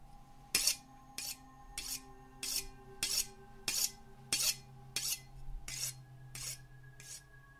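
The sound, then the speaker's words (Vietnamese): Cold metallic rasping of a knife being sharpened, heard from outside a well: a steady, evenly spaced series of bright scraping strokes, roughly a dozen, each a short loud burst over a faint low hum. “Rồi tiếp theo, âm thanh mài dao lạnh lẽo từ ngoài giếng truyền vào.”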